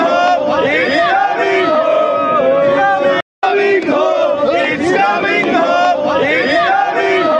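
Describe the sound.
Indian football fans chant loudly in unison to welcome England's national team in Doha, Qatar. The rough, dense crowd singing runs continuously, broken only by one brief gap near the middle.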